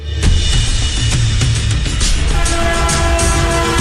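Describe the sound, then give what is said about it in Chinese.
A coal freight train speeds along a railway in a loud, continuous roar of rumbling wheels and rattling wagons, with a few sharp clanks near the start. “一列平常用于装载煤炭的火车从苏联开出，沿着西伯利亚大铁路一路向南飞驰而来。”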